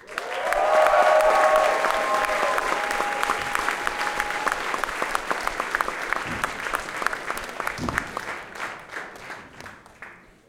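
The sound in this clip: Loud, dense applause from an audience welcoming a band from Duluth onto the stage at a local music fest, strongest at the start and gradually thinning into scattered claps over about ten seconds.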